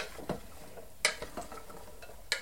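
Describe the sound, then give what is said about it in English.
Stirring celery and onions in a crock pot on a hot surface, with a few scattered clinks and soft scrapes of the utensil against the pot, fairly quiet and without talk. “I can smell it in the way that I stir.”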